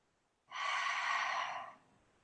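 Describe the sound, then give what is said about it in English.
One forceful breath is blown out through the mouth while the glutes are squeezed and the belly pulled in during a core exercise. The breathy, hissing rush is strong and steady for about a second, then fades to quiet. “So we're going to squeeze your glutes and blow your air out and pull your belly in.”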